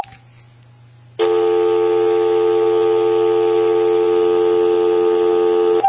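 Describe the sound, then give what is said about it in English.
Landline telephone dial tone heard when the handset is picked up: a faint low hum for about a second, then a loud, steady, buzzy tone that holds without a break to the end. “So what is that? That's the sound of a landline. So when you pick up the handset, I used to call it a receiver, but when you pick up the handset, that's the sound that you would hear.”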